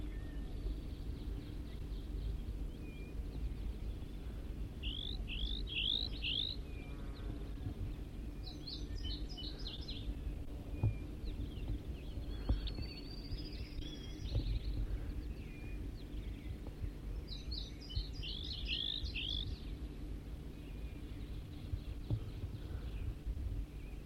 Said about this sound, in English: Start recording a wild bird again.